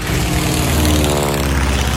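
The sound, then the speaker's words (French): Airplane drone, likely a propeller aircraft, forms a loud, continuous low rumble with a steady throbbing hum that stays even and unbroken throughout. “On a tous compris, c'est un avion.”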